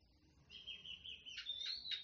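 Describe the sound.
Birdsong in a natural setting: a faint, high sustained whistle followed by a few short, bright chirps, with no voices.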